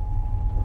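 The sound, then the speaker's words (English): A Jeep transmission whines while the vehicle drives up a mountain dirt road, holding a steady mid-pitched tone over a constant low engine rumble in a very brief stretch. “What you're hearing is our Jeep singing. Yeah, she sings. That's her transmission making the sound.”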